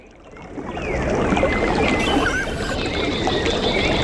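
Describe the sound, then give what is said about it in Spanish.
Flowing water of a small stream running through a village in the Almería Alpujarra, a steady rushing wash that swells during the first second and then holds constant and fairly loud, with no talk. “A veces es también el sonido cuando lleva agua de los riachuelos que atraviesan parte de los pueblos de la Alpujarra almeriense.”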